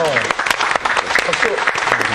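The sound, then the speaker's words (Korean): Brief applause from a lecture audience in a Bible study class, with a burst of clapping mixed with talking. “이건 박수 한번 해야 돼.”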